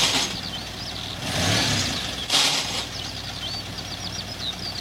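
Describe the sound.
A car engine runs steadily while the gears fail to engage, with two louder noisy bursts rising over the engine's continuous drone.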